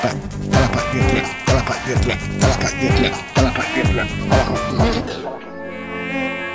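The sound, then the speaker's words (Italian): Insects buzz around a blue lamp that attracts them, a dense, steady whine with a regular pulsing rhythm. The buzzing stops abruptly near the end, leaving a quieter, thinner tone. “Sì, ma quella è la lampada, quella azure. Azure, sì. Che attira gli insetti”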